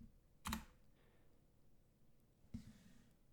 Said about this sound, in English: It's hard to type around a microphone.